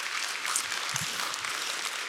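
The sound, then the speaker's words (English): Audience applause in a church service, steady dense clapping from many hands as a child comes up to read, moderately loud and even throughout with no talk. “Will you give him a round of applause as he comes and reads this for us?”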